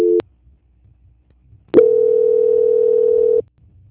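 Phone line tone during a call transfer: a short beep, a pause of about a second and a half, then one long steady mid-pitched tone that holds for under two seconds, loud and alone.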